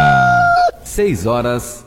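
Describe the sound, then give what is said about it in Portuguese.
One loud rooster crow, lasting about two seconds: a long held note that drops away, then a shorter wavering tail. “A mimosa, o cavalo alazão, o galo Chico, informa a hora certa.”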